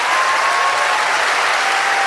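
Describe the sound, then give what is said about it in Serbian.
Loud, sustained applause from a concert crowd at Sava Centar, greeting singer Predrag Živković Tozovac. A dense, even roar of clapping holds steady throughout without a pause. “I veliki aplauz za Predraga Živkovića Tozovca.”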